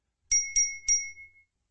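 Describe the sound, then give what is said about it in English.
A bright notification chime for skill and stat increases: three clear bell-like dings at the same pitch in quick succession, the last ringing out briefly before fading into silence. “Jason was able to survey the notifications of his skill and stat increases”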